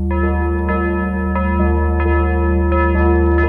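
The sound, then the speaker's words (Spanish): A bell at a convent is rung with repeated resonant strikes at an uneven pace, each ringing into long overlapping tones over a steady low hum, with no voices. “Luego baja de la escalera y toca otra campana.”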